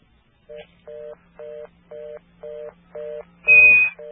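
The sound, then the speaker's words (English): Touch-tone keypad dialing on a telephone during a calling-card call: a run of six evenly spaced, identical beeps, then a louder, higher tone, over a faint steady line hum. “It didn't go through that time, so I did a pound, and you can dial another number.”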